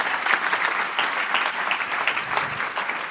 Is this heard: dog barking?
no